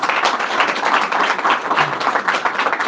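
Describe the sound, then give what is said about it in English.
Audience applause at a religious gathering honoring a rabbi: a dense, steady wash of many hands clapping at once, loud and continuous throughout with no voices standing out. “Rabbi Harris, a big round of applause in a minute”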